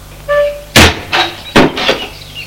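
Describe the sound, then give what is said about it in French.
A door opening into another room, heard as a few sharp thumps and knocks, two of them louder and heavier than the rest, with no talk over them. “Ils ouvrent une autre pièce.”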